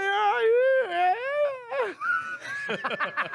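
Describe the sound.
A human voice imitates a puzzled dog's questioning whine with high, wavering, nasal tones that rise in an inquiring lilt, followed by shorter choppy vocal sounds.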